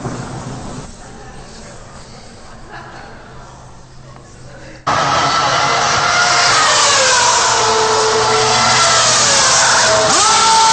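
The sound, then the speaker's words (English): Indy 500 race car pulling away after a pit stop with its tires changed: a subdued, murky stretch gives way abruptly to a loud engine roar about halfway, with its pitch climbing as it accelerates. “A crewman polishes the windshield as Holland moves away just 67 seconds after he stopped.”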